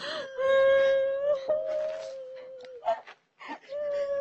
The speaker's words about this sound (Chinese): 行了行了，别哭了，把眼泪都收回去。